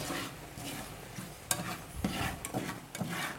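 Garlic and cooked greens sizzle in hot oil on a cooking show, a quiet, steady hiss broken by a few soft clicks and scrapes of stirring, with no talk over it.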